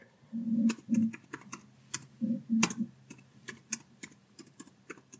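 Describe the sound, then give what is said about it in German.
Keys on a computer keyboard are pressed slowly to enter a search term, producing many distinct, unevenly spaced clicks, some with a soft low thump beneath them. “die Suchmaschine Google und dort tippst du in das Suchfeld dein Angebot, dein Haupt-Keyword. Tipp es mal ganz langsam ein.”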